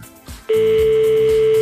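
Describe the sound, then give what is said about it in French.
A steady telephone tone comes in abruptly about halfway through as a call is dialed and rings, holding one unbroken loud pitch to the end after a quieter opening. “On fait sonner et on voit ce qui se passe, si ça répond ou pas.”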